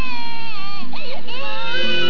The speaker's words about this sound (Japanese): 家では赤ちゃんの泣き声に5歳の子まで目を覚まし一緒に泣き出した。